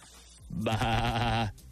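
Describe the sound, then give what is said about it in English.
A sheep named Homer lets out a single loud, wavering bleat that rises out of quiet, holds its buzzy, harmonic tone for nearly a second, then cuts off. “And it'll be great to have him and Homer on the same panel. That's a lot of greatness in one place. But before we do that, since Homer is a sheep,”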